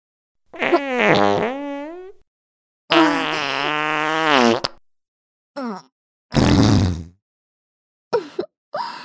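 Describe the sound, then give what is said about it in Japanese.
Several farts in a row, alone: two long, drawn-out blasts with a wavering pitch, then shorter sputtering bursts separated by silences. “どう？おなら三連発。すごいでしょ。”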